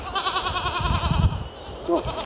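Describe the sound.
Goats on a goat farm bleat in a few trembling, wavering calls, one drawn out at the start and another shorter one near the end, over low background rumbling.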